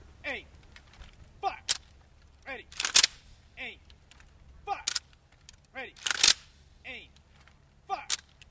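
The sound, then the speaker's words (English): Three rifle volleys fired by a seven-man Marine honor detail at a funeral, each a sharp crack spaced a couple of seconds apart, while birds chirp repeatedly throughout. “It consists of a 7-man detail, each firing 3 rounds. And when you get ready to fire, they go to a 45-degree angle so that when they fire, the rounds actually go over the casket.”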